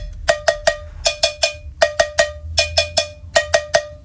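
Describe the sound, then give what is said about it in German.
Bright metallic strikes of a cowbell played as a percussion instrument in a pop song, loud and alone, falling into a steady rhythm of groups of three hits with short gaps between groups. “Und zwar die Kuhglocke. Habt ihr schon mal ein Instrument namens Kuhglocke gehört? Nein, ich auch nicht. So klingt's.”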